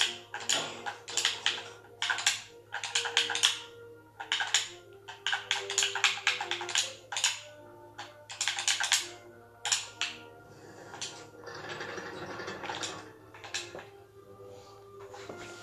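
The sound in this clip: Typing on a computer keyboard: many rapid keystrokes come in clattering bursts separated by short pauses, moderately loud over a faint, steady low hum.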